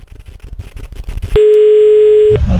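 A telephone ringback tone while calling someone, a single steady mid-pitched beep lasting about one second, preceded by choppy, low rumbling sounds.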